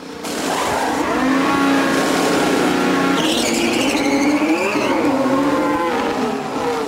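Engine noise from Verstappen's Red Bull Formula 1 car entering the pit lane at the 2022 Bahrain Grand Prix, a loud, continuous whine whose pitch shifts and wavers, with a higher tone appearing partway through.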